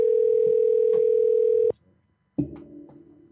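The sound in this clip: A telephone tone while a call is being placed: one steady, unbroken tone holds for under two seconds, then cuts off abruptly into silence.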